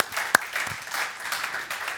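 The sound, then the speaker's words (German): Applause fills a church service, a steady wash of many hands clapping at moderate volume with one sharp louder clap early on. No voices stand out. “Geben wir Gott zum Schluss einen Applaus für sein wunderbares Werk, für seine Menschwerdung.”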